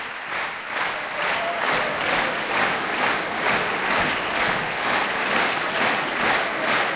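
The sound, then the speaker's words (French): Concert audience at the La Roque d'Anthéron festival clapping in rhythmic unison to call a piano duo back on stage. The clapping is loud, evenly pulsed and sustained throughout, with crowd noise beneath. “Vous l'entendez, Ludmila Bernskaya et Arthur Ancel sont rappelés par le public de la Roque d'Anthéron. Ils reviennent sur scène.”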